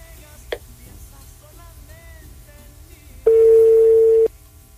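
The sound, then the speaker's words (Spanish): After an unanswered call, one steady telephone busy tone plays for about a second. Faint, scattered sounds over a low hum come before it. “A ver, voy a intentarlo de nuevo. No, esa como su señal, voy a ver qué rollo.”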